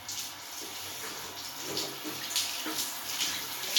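A shower runs in a bathroom with a steady, broad hiss of falling water that continues throughout, with faint splashing variations and no voices.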